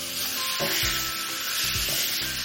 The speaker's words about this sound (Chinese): 首先生抽开大火，把这个春笋倒进去